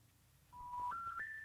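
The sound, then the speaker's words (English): Three rising electronic tones play on an international phone call that cannot be completed as dialed. Each steady tone steps higher in pitch than the last, and all are fairly faint. “It's thinking about it. It's calling. A call is being made of sorts.”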